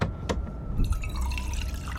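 Tea is poured into a cup: a few brief drips come first, then a continuous bubbling, gurgling trickle of liquid filling the vessel at moderate volume.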